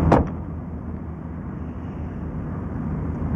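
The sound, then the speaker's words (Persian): A person gets into a car. A brief knock at the start gives way to a steady, loud low rumble of engine and road noise that continues to the end. “مریم سوار ماشین شد.”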